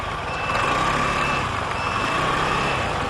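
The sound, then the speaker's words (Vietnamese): Container trucks rev along a road at night, heading toward a bridge, as a steady, loud, broad engine roar with no pauses. Faint intermittent beeping tones sit above the rumble. “thi thoảng mới có vài chiếc container rú ga lao trong đêm tối”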